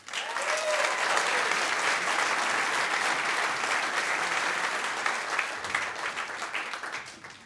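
A stage audience applauds a guest, a dense, steady wash of loud clapping that holds for several seconds and then starts to fade at the end.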